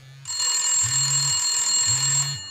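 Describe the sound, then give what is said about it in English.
A mobile phone rings on a bedside table with a continuous high electronic tone, while a low vibrating buzz pulses beneath it in repeated bursts, then the ring stops. “He puts his head under the pillow to shut out the outside noise when his mobile rings on the bedside table.”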